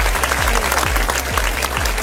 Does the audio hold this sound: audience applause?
yes